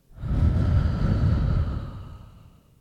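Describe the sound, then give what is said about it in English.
A deep exhale through the mouth, one long breathy rush of air that holds steady and then fades away. “And biggest exhale yet, exhale through the mouth.”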